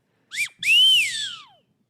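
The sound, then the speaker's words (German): A nose whistle, held to the nose and above the mouth, is played alone: a short rising chirp, then a longer clear tone that swells, arcs slightly upward and glides down as it fades. “Das heißt, es ist eine Pfeife. Das hält man sich an die Nase und unter den Mund und dann kann man...”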